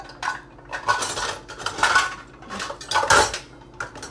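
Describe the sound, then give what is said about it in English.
Clattering dishes and clinking cutlery as a bowl is fetched and handled among other dishes while making buckeyes. Several sharp, fairly loud bursts of ceramic and metal knocks come at uneven intervals, with no talk. “Okay, I need a bowl to dump this into.”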